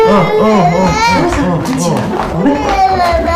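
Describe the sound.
An infant cries in wavering, tremulous wails while a man talks soothingly over it, the crying steady and loud throughout.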